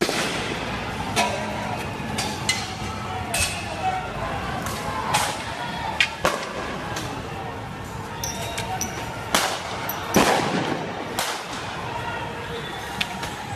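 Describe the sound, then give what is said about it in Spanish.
Sharp cracks of gunfire as Bolivarian National Guard tanks fire on crowds in the streets of Venezuela. Many irregular bangs ring out over a constant rumble of crowd noise and voices. “Bien, esta es la Guardia Nacional Bolivariana con los tanques disparándole a un pueblo que está desbordado en las calles”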